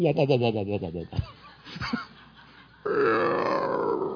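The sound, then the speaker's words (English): A voice imitates a hungry stomach growling, with gurgling, burp-like grunts and croaks over about four seconds that end in a rougher, sustained rasp. “Oh, don't you just love it? You're at a prayer meeting, and hunger hits, and you have the hunger sounds.”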